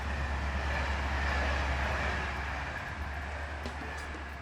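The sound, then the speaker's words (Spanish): Night train from Limoges to Paris speeding through the Loire Valley at about 161 km/h, a steady dense rushing roar over a constant low drone, unchanging throughout. “El tren nocturno de Limoges a París recorre con rapidez el Valle del Loira a 161 kilómetros por hora.”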